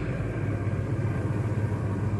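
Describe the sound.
Steady, low engine rumble from a truck, a dense continuous drone with no clear breaks and no talk over it.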